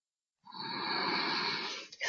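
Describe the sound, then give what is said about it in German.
One long, deep breath in during a guided meditation: an airy, hissing inhale starts after a short silence, holds steady for about a second and a half, then fades, with no talk over it. “in tiefer Demut, in tiefem Glauben. Ich atme ein.”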